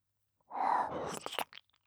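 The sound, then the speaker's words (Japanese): Close kissing and mouth sounds by the ear in a Japanese intimate roleplay: a soft, breathy, wet smear followed by a few short lip smacks and clicks, quiet and unaccompanied by talk. “愛おしいご主人様のお耳と、口づけをさせていただきますね。”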